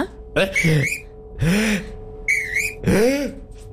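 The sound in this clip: A whistle sounds in a few short, shrill bursts with bending pitch, separated by brief pauses and mixed with breathy sounds.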